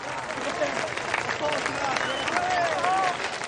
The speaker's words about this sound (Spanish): Enfrente, un centenar de jóvenes aplauden en pie la brillante actuación.